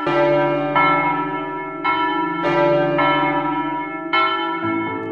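Church bells ring loudly, with several strikes at irregular intervals, each with a bright attack and a long, overlapping, humming decay.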